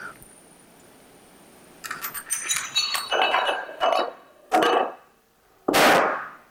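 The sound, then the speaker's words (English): A row of 13 dominoes of increasing size topples, the largest over a meter tall and about 100 pounds. Quick light clacks build into heavier, louder knocks, and the final impact is the biggest and loudest. “Boom. That was 13 dominoes.”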